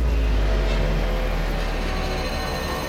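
A scooter engine runs as the rider heads home, a loud, steady low rumble that holds without a break and has no voices over it.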